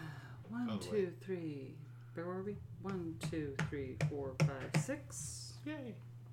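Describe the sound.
A die clatters during a Halloween horror Trivial Pursuit board game, a few sharp clicking taps over steady talking voices.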